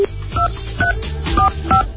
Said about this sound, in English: Now, you see, every number we dial doesn't work.